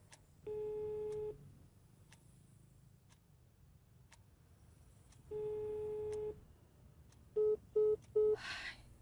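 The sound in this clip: An unanswered telephone call gives two long, even ring tones separated by a long pause, followed by three short beeps in quick succession, all fairly quiet with faint ticking clicks between.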